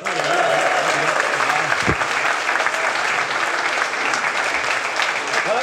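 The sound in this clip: Loud, steady audience applause welcomes a panel at a live event in Westport, dense clapping continuing without a break from start to finish.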